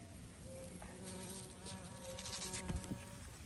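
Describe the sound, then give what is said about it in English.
Bumblebees buzzing in a garden make a faint, continuous hum whose loudness wavers as the insects move about, with no voices. “And my bees. I'm so excited about the bumblebees.”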